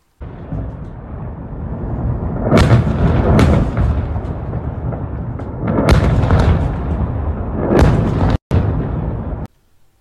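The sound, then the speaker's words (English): A missile attack on the U.S. consulate in Erbil, Iraq: several heavy explosive booms rise out of a continuous low rumble, spaced irregularly and followed by an abrupt cutoff. “Q posted a video purportedly showing a missile attack on the U.S. consulate in Iraq and wrote, "According to multiple sources, a number of missiles were fired towards Erbil, where there is a U.S. General Consulate base." Let you watch this video.”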